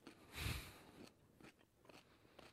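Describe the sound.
Biting into a raw carrot at a tasting gives one sharp crunch, then a few quieter crunching chews. The sounds are faint overall, with no talk.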